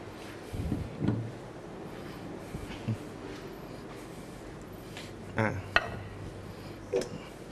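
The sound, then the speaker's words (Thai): A serving plate is picked up during a Thai salad cooking lesson, making a few soft, widely spaced knocks and light clinks that stay quiet over low background noise. “เดี๋ยวครูมอสขออนุญาตหยิบจานที่จะใช้เสิร์ฟก่อนนะครับ”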